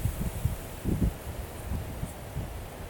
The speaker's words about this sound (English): The wind over the pond's pretty bad, so I had to turn around.